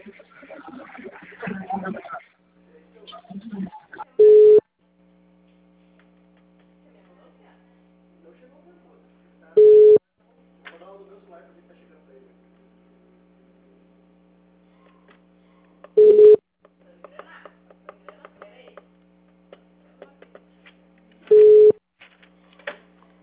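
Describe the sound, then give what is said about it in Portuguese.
Telephone call ringing: four evenly spaced ring tones, roughly every five to six seconds, over a steady low hum, with people talking between rings. “Meu Deus, estou ligando pro cara.”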